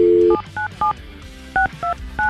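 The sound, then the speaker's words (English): Telephone touch tones as a number is dialed: a brief steady tone, then several short, clipped dual-pitch beeps in an uneven rhythm, loud and clear with no talking. “We've dialed the number and... To bring in, we're waiting for him to pick up.”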